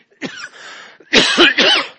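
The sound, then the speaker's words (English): Coughing: a few harsh, loud bursts, the first followed by a softer rasping stretch, then two heavier coughs close together near the end, with no talk over them. “I felt that cough coming.”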